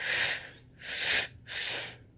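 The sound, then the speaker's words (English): Three inhales of breath during a breathing exercise, each a soft, airy hiss of about half a second, evenly spaced with short pauses and no voices. “Now three inhales in”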